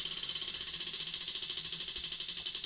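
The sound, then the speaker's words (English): Prize wheel spun during a party game deciding who eats a spoonful of hot sauce: many rapid, faint, high ticking clicks at a steady, even rate. “So, spin the wheel!”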